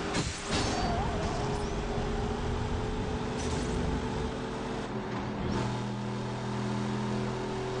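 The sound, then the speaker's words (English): Engine roar of a drifting car in a video game, a loud, continuous, mid-pitched drone layered with sustained tonal lines and rough tire-like noise, holding steady throughout with slight shifts in pitch. “It's definitely a drifting car right here.”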